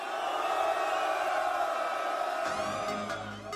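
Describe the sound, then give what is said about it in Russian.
A battle rap audience in St. Petersburg roars and cheers, a loud, sustained wall of crowd noise with shouts and whoops that holds steady and thins slightly toward the end. “Питер, покажите, как шумит самая лучшая батловая публика.”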